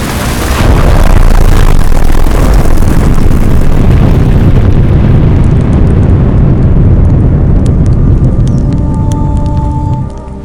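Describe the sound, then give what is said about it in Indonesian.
A huge explosion destroying a city under artillery fire: one loud, sustained low rumbling roar that rolls on for several seconds, its hiss slowly dulling toward the end. “Tembakan artileri menghujani kota. Akhirnya, letupan besar mengakhiri segalanya.”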